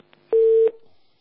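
A single steady mid-pitched telephone tone about a third of a second long, framed by faint clicks, as an incoming phone call connects.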